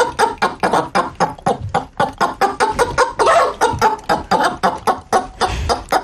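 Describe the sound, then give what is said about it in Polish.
A frightened hen clucks loudly and without pause, a dense run of rapid, agitated squawking clucks with harsh bursts throughout. No people talk. “Ale to jest przestraszona kurka.”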